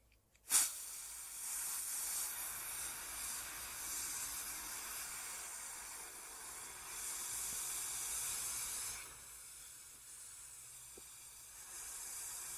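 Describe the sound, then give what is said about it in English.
A sustained voiceless F sound held in a speech exercise: a steady, breathy hiss that starts abruptly and holds for about eight seconds, then drops to a softer hiss until the end. No other voices. “Now we're going to do the same thing but with an F and a V. First, the F.”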